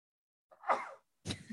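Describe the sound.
A single human sneeze: a short voiced build-up, a brief pause, then a sharp, noisy burst. Nobody talks.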